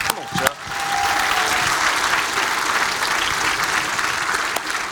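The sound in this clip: Audience applause welcoming a guest on stage: loud, steady clapping that builds quickly and holds for several seconds, with a voice heard over it.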